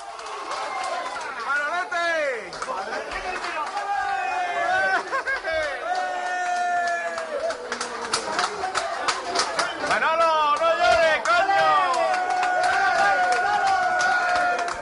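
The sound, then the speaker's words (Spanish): A crowd in a bar in Melilla erupts after a football goal, with many voices yelling and cheering over one another in a dense, loud roar that surges repeatedly throughout. “Este es el sonido de un bar en Melilla.”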